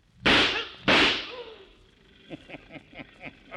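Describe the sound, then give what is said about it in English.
Two sharp, loud gunshots fired at a bank guard during a robbery scene in a radio drama, each a crack with a decaying tail about half a second apart, followed by a few softer, evenly spaced knocks. “It was a guard. It's a corpse now. Oh, that sure was good shooting, Mr. Peacher.”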